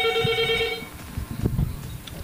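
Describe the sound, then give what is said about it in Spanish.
A telephone rings with an incoming call: one bright, steady electronic ring lasting under a second, followed by low rumbling noise. “Vamos a atender la siguiente llamada.”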